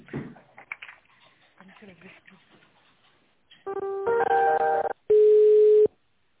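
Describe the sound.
Telephone line tones sound while a call is transferred. Faint clicks come first, then a buzzy stretch of chord-like tones, then one steady beep about a second long, then silence.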